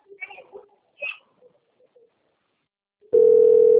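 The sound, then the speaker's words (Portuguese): A telephone dial tone sounds while a call is being placed: a steady, loud, single-pitched tone that starts abruptly near the end, after a few brief, faint sounds. “Tô ligando, tá? Ó. Tô ligando mesmo.”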